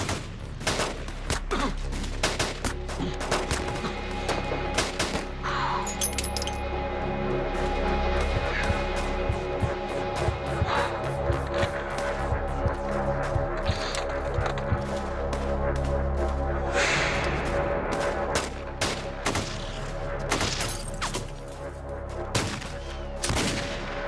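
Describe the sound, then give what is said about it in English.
Continuous gunfire from the North Hollywood shootout: dense, rapid volleys of sharp cracks and bursts fire without pause from start to finish, loud and relentless over a steady rumbling background. “Absolute war zone down there. The firing continues.”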